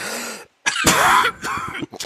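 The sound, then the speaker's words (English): Hard, harsh coughing after inhaling a strong, meaty cigar, several rough throaty bursts in quick succession, loud and choking. “I coughed so hard I tooted.”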